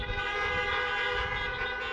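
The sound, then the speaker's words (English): Many car horns honk together in a parking lot full of people at a church gathering, blending into a dense, continuous blare of overlapping tones that stays steady and fairly quiet throughout, with no talking. “go ahead, beep your horn.”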